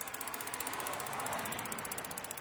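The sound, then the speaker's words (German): Clicking from a bicycle freewheel ratchet as the bike is ridden. A fast, even train of many tiny clicks plays quietly over a steady hiss. “Ich fahre also hin. Der Umwelt zuliebe mit dem Fahrrad.”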